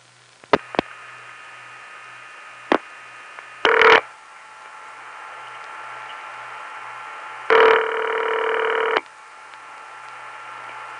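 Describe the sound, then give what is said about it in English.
A Bell Canada line ringing on an AT&T long-distance call into Montreal: one short burst, then a longer steady buzzing ring. A few sharp clicks come before them, and a low hum runs underneath throughout. “When you called Canada to an area served by the Bell Company there, there was another ring which was very common. Here's a long-distance call over AT&T's regular network coming into Montreal, which features this ring.”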